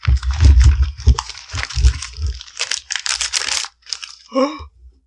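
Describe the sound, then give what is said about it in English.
Wrapping paper being torn open on a present: loud bursts of crinkling and ripping in quick succession, then a short pause, with a brief voice near the end. “I'm just going to rip into this.”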